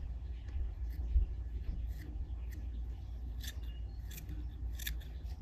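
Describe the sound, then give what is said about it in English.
Scissors snip through fly-tying materials while trimming a minnow streamer fly to uneven lengths, giving many short, crisp, faint cuts scattered over a steady low hum. “I'm gonna trim these down and I'm gonna trim a little bit so they're not all the same size.”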